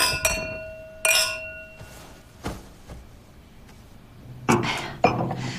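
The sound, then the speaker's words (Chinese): Glasses clinking in a toast: bright glassy chinks ring out several times, one with a lingering ringing tone, mixed with quieter knocks and handling clatter, with no voices. “来，干杯！”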